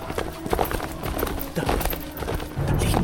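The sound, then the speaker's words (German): A ridden black horse gallops, its hooves beating a rapid, loud clatter that runs continuously throughout. “Ich gab dem Rappen die Ferse. Jeder Huftritt meines Pferdes wirkte wie ein Faustschlag auf meinen Kopf.”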